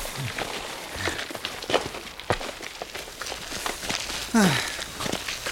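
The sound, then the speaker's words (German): Footsteps walking into a house: a few soft, irregular steps over a steady background hiss, quiet and without talk. “Gehen wir doch einfach mal ins Haus, oder?”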